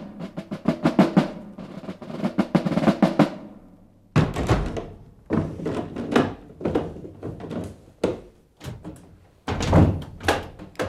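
A door being shut and locked: a rapid run of wooden knocks and clicks, then a heavy thud followed by further clunks and rattles, with no voices.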